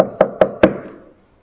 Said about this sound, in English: Within minutes, a baker knocked on the door.